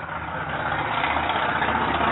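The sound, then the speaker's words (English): Passing street traffic outside on a main street during an evening event: a steady engine rumble and road hiss that holds a constant level throughout, with no voices. “we're sitting outside, so we got all the traffic by driving by here.”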